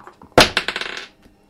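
A die rolled onto a table during a tabletop role-playing game saving throw: one sharp clatter, then a quick run of lighter bounces that grow closer together and fade within about a second.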